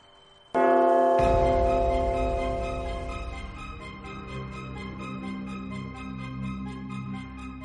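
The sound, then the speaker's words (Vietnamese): A bell rings out across mountain peaks on an academy island: a sudden loud strike, then a deeper, fuller tone that rings on and fades slowly, with no other sound. “Cùng lúc đó trong các hệ khác cũng có tiếng chuông vang vọng, toàn bộ đỉnh núi trong đảo hạ viện này nháy mắt đều có tiếng chuông vang lên.”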